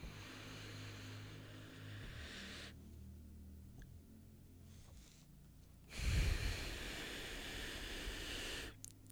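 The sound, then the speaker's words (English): Slow, deep breathing during a paced breathing exercise of inhaling, holding and exhaling for counts of four: a faint, long inhale, a quiet pause, then a louder, breathy exhale lasting several seconds. “You know you're supposed to inhale for four, hold for four, exhale for four.”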